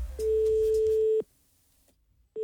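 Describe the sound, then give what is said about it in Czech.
Telephone ringback tone heard while calling a hotel: a steady mid-pitched tone lasting about one second stops abruptly, then quiet follows before the next identical tone starts just at the end. “Pamatuju si, že jednou to otestoval i Mrázek Ústředna, kdy volal do hotelu.”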